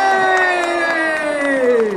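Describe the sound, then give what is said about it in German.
Cheering and clapping from several hundred people at the Christmas lights switch-on on Opera Square in Timișoara, with a loud sustained tone sliding slowly downward in pitch over the crowd. “Der Countdown lief gestern Abend am Opernplatz in Temeswar und mehrere hundert Bürger klatschten vor Freude, als die Weihnachtsbeleuchtung in der Innenstadt eingeschaltet wurde.”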